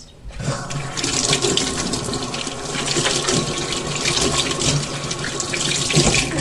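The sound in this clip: A water tap runs into a sink as someone washes their hands, a steady loud gush of water that starts after a brief silence and continues unbroken.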